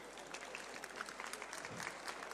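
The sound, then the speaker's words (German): Faint applause from an audience thanking a young interpreter at a convention signing session, a soft, continuous patter of many hands with small uneven peaks throughout. “Bitte mal einen kleinen Applaus für Hiro.”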